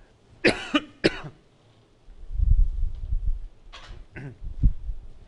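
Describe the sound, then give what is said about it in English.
A person coughs twice sharply, as if something is caught in the throat. Low, rough rumbling and a few more throaty bursts follow. “All of a sudden, I just got something in my throat here.”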